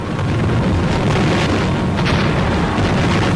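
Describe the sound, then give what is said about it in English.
Bombs exploding during a wartime Japanese air attack on America, a loud, dense roar of blasts that merge into one continuous rumbling wall of noise with no distinct separate bangs, no voices. “The Jap assassins' bombs bring to America the grim reality of war.”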